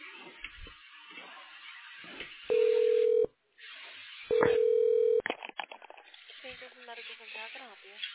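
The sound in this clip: Telephone line tones sound on a hospital call as it is transferred: two long, steady single-pitch beeps, each about a second, separated by a short pause, with muffled voice sounds before and after.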